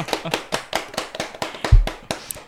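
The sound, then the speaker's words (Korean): A small group claps in brisk, evenly spaced hand claps, about ten sharp slaps in a steady rhythm, with a short low thump near the end. “와. 박수. 이제 박수.”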